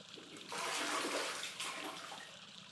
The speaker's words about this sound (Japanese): ほら、この露天風呂のお湯ってとっても気持ちいいんですよ。